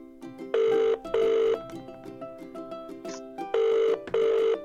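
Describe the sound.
A telephone call rings out after a number is dialed: two double-burst ring tones, then a pause containing a short high beep, then two more double rings.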